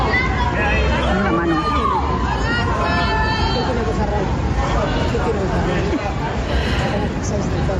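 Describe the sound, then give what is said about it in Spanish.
A crowd of fans waits outside the Hotel María Cristina in Donostia and greets Orlando Bloom on his arrival, making a loud, continuous hubbub of overlapping voices and shouts. “Así recibía Orlando Bloom el público que le esperaba a las puertas del Hotel María Cristina.”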